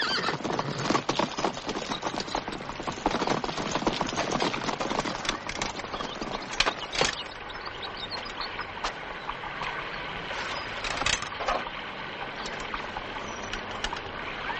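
Horses by a stream in a film scene with soldiers, a dense, continuous clatter of clip-clopping hooves with sharp neighing bursts rising out of it now and then.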